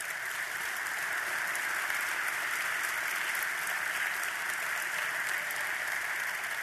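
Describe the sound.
A gathered audience gives steady, dense applause to welcome the Park Christian High School boys and girls basketball teams. The clapping is even and sustained for several seconds with no talking over it.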